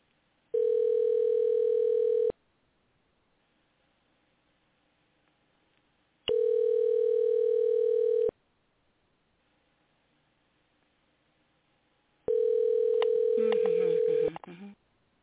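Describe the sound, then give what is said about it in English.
Ringing tone of an outgoing telephone call: three long, steady tones, evenly spaced by silent gaps, with a brief rough burst of noise as the last tone ends. “We're going to start out by trying to get a hold of Levi. So let's see if this works.”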